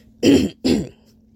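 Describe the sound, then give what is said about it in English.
A man clears his throat in two quick, rough, moderately loud bursts with a short gap between them. No talk follows. “He stops, clears his throat”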